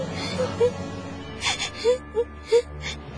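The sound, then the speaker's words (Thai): A frightened child cries in a few short, whimpering wails, with breathy gasps between the brief tonal sobs. “เด็กนี่เริ่มร้องไห้แสดงว่าเริ่มหายตกใจแล้ว”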